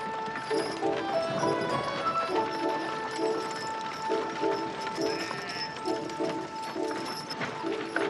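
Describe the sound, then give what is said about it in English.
Horses tied behind a wagon clip-clop steadily as it drives out of a yard, with many even, rhythmic hoof knocks. “Drives out of the yard, their horses tied behind the wagon.”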